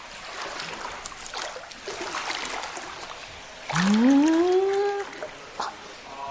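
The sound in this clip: Water sloshes and trickles softly as a person slips into a sulphur hot spring bath at an inn in Shinshu, Nagano. A long, loud sigh of relief from the bather follows, rising in pitch.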